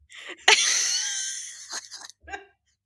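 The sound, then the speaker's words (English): A voice imitates a burp that comes out only as air: one long, breathy, wheezing exhale with a faint strained tone, followed by a couple of short, soft puffs of breath. “And we can't burp. Like, when we do, it comes out as, like,”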